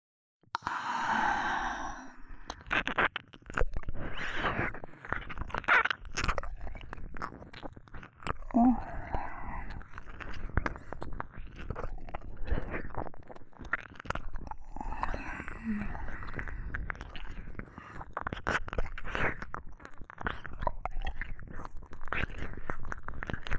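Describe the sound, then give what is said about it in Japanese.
Soft, wet tongue-licking sounds: a continuous stream of moist smacks and slurps that runs for the full length, with occasional breathy sighs among them. “舐められたいんだ。構わないよ。私の舌で、たっぷりめでてあげよう。”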